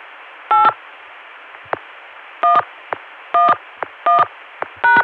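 Touch-tone dialing on a telephone line: five short two-tone DTMF beeps with brief clicks between some of them, all over a faint steady hiss.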